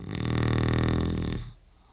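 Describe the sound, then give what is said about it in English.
A man snores in one long, rattling breath, a loud buzzing rumble that holds for over a second before trailing off into quiet. “And he's snored like this for how long? 41 years.”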